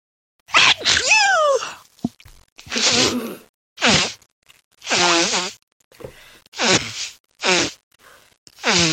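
A person blowing their nose in a series of loud, honking, bugle-like blasts. There are several bursts of varying length, separated by short pauses.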